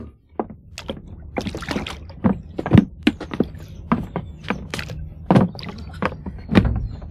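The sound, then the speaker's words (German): A rowing boat with two rowing benches on a lake: many irregular wooden thunks and knocks from the oars and hull, mixed with soft water splashes, at moderate loudness. “Das ist ein gutes Boot. 2 Ruderbänke.”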